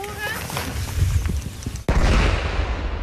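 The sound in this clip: A firework explodes, from fireworks confiscated by police and set off for tests: one sharp, loud bang midway through, followed by a sustained hissing rumble.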